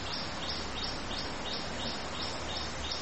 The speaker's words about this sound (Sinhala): මේ කුරුල්ලෙක් කෑ ගහනවා නේද? එතකොට ඒ කුරුල්ලෙක් ඉන්නවා.